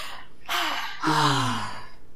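Deep breaths taken together on a count of three: two breathy, partly voiced gasps in quick succession, the second longer and louder, trailing off like a sigh.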